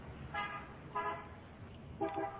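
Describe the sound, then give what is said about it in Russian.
Car horns honk in a street: a few short, bright toots spaced apart, the last two close together, over a steady low background rumble. “Does he hear cars honking? Вы слышите, как там машины сигналят? Да. Yes, I do.”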